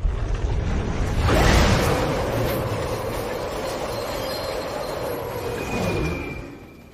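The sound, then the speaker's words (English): A subway train hurtles through a tunnel, a loud steady roar and rumble of wheels on rails with thin, high metallic squeals threading above, swelling early on and then fading out at the end. “Below, a subway train hurtles through miles of tunnel.”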